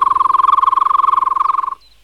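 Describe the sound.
A person whistles one sustained, loud note with a fast warbling trill, held alone for under two seconds before breaking off abruptly.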